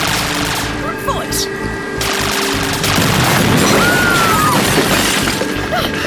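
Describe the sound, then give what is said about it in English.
Heavy gunfire pins people down beside a car: a loud, dense barrage of overlapping shots with no break, filling the entire stretch at a steady, high level. “We're being shot at! We're pinned down!”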